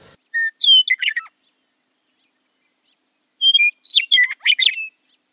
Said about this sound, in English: Isn't this a lovely sound? It's a western meadowlark, a species closely associated with prairies and other open habitats